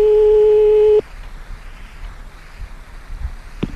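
A telephone line tone while redialing the same number. A single steady buzzing tone lasts about a second and cuts off abruptly, followed by faint low noise and a short click near the end.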